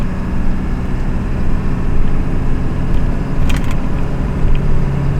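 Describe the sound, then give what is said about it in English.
A car driving on winding mountain back roads along Virginia 460, with a steady, loud drone of engine and road noise that stays constant throughout, with no talk. “Driving these mountain roads now, I've been on a detour”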